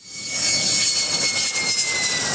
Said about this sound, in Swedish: De två nya stridsflygplanen landade idag på militärbasen i Taitung på Taiwan. Leveransen är försenad och de två planen av sorten F-16V är fortfarande bara de första